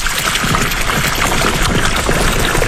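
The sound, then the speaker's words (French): Water from a 50-metre well on a horticultural farm pours in a steady, loud, continuous rushing splash with no breaks. “C'est super, c'est beau. Cette eau, elle vient d'où ? Elle vient de mon puits, un puits de 50 mètres.”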